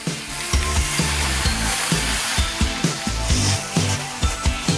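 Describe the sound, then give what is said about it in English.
Kale frying in a pan, heard as a steady, bright hiss of sizzling with a rhythmic low beat underneath. “Let your kale darken and soften a bit before throwing in your sausage and nuts.”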